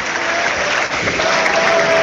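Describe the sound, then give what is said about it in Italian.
A stadium crowd at a football match applauds as players Maldini and Mendy come on, a broad, sustained wave of clapping that holds a steady level throughout. “Ed c'è anche Mendy. Gli applausi per Maldini e Mendy.”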